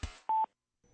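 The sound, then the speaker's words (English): A single short touch-tone beep from a phone number being dialed sounds at a steady mid pitch, clear and alone, after a brief soft noise. “Dialed, the number, press, the number, dialed, the number, that's the tone.”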